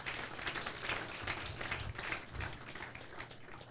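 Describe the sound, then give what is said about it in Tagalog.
Church audience clapping to praise the Lord, a dense run of many quick claps that stays fairly faint and steady throughout. “Pwede ba natin palakpakan ng Panginoon?”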